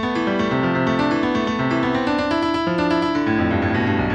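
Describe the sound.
A sequence of musical notes renders weekly U.S. coal production of the 1980s as sound at ten weeks per second, with pitches jumping up and down in quick succession at a steady, even loudness throughout.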